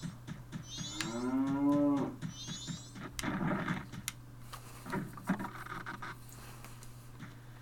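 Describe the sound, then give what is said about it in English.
Cattle moo inside a barn: one long, loud, drawn-out bellow rings out over a steady low hum, followed by softer rustling and scraping noises and a couple of fainter lowing sounds. “So we go inside the barn.”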